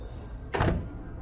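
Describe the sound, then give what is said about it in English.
A door is opened as a thin man answers it. A single short, rasping swish rises briefly above a faint, quiet background, then fades back down. “She approaches the door. A thin man answers the door.”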